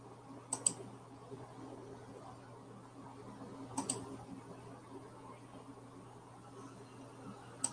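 Computer mouse clicks as open windows are closed: a few faint, sharp clicks arriving in small pairs, spaced widely apart over a low steady electrical hum.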